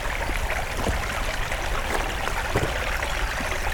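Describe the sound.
Water draining out through old steel drain pipes makes a steady, fairly faint rushing trickle, an even wash of sound that runs without clear breaks from start to end.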